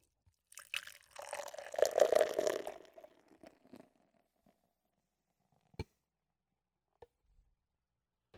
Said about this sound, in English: I can't fucking wait to fucking have this beer. Let's crack this motherfucker open.